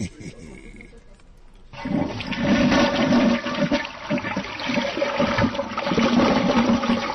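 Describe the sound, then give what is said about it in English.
A deep toilet flush bursts in abruptly after a quiet opening, a loud, low, roaring rush of water that sustains with churning surges to the end. “That's a deep toilet flush.”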